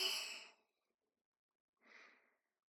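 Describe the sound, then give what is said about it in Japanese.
Deep breaths during a guided relaxation exercise for falling asleep: two soft, airy breath sounds separated by a silent pause, the first longer and louder than the second. “部長、もう一回。吸って”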